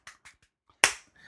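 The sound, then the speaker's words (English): A golf clap of light, polite clapping: a few soft, widely spaced claps, then one sharper and louder clap, with quiet gaps between them. “Is that a golf clap?”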